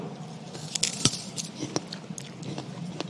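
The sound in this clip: Someone biting into and chewing a ripe fruit, with faint, irregular crisp crunches and wet squishes repeating throughout.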